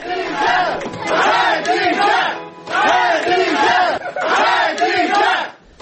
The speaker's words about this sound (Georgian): ეს შეძახილები კი შარშან 5 დეკემბერს ისმოდა ბაქოში, როცა ხადიჯას მეგობრები სამბაილის რაიონულ სასამართლოსთან შეიკრიბნენ მას შემდეგ, რაც ჟურნალისტი ქალი დააკავეს